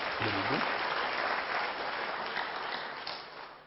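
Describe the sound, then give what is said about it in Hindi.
A group of seated children clapping for themselves, a steady burst of applause with a voice heard briefly at the start, fading away at the end. “आप सब अच्छे बच्चे हैं, हां या ना, फिर तालियां बजाइए अपने लिए”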